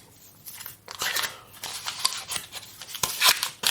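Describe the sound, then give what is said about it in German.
Paper crinkles and rustles as a block of butter is unwrapped from its packaging while baking ingredients are prepared. The sound comes as faint, irregular crackly bursts of varying strength. “Ich packe gerade meine Butter aus.”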